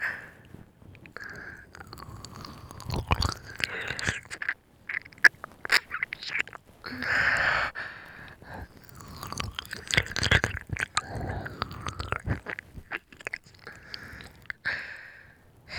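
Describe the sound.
Chewing and biting mouth sounds from an ear-eating roleplay: many irregular wet, crunchy bursts with short pauses between them, close and fairly soft throughout.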